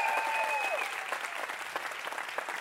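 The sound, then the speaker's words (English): A church audience applauds its lead pastors during a service: dense, steady clapping that holds at an even level for the whole stretch, with no clear talk over it. “can we really make some noise for our leadership, our lead pastors, Greg and Tamara Dumas?”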